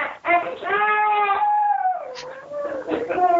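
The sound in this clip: Children cry in the background of an online call, with drawn-out, wavering wails that stay loud and continuous from start to finish.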